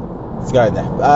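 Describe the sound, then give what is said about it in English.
A car driving through a tunnel gives a steady, low road rumble and engine drone beneath a person talking throughout. “I'm driving through a tunnel right now. So if the audio is terrible here, there's nothing I can do about it.”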